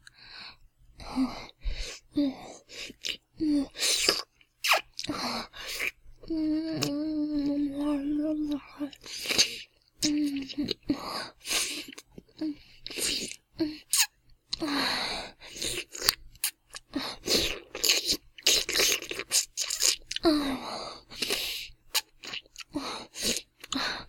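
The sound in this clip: ASMR licking gives many close, wet mouth clicks and smacks in irregular bursts, with a soft sighing, moaning voice partway through.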